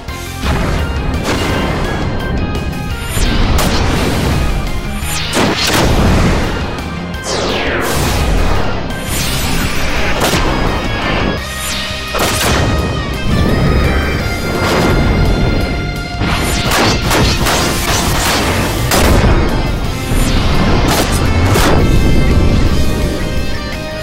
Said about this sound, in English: Wozza, this is a 21 weapon skill salute with some provokes, some job abilities, and some cures thrown in there, uh, especially for the paladin.